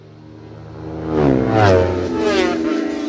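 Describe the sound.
A Shannon Racing Suzuki racing motorcycle engine revs hard. Its high, buzzing whine climbs in pitch and grows loud, peaks midway, then eases slightly and stays strong to the end.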